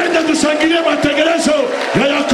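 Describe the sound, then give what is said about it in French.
Crowd cheering and shouting in acclaim during a preacher's address, a dense steady roar of raised voices with a few sharp accents scattered through it. “J'aimerais qu'on acclame le programme de Jacob.”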